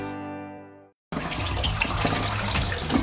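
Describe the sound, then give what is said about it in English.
Water running down a drain as a steady, loud rushing hiss. It starts abruptly after a brief sustained musical tone fades out and continues evenly to the end. “When drains back up, Roto-Rooter shows up.”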